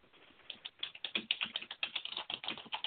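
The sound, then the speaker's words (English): Typing on a computer keyboard: many quick, uneven keystroke clicks in irregular bursts, fairly faint and with no voices. “I hear typing in the background.”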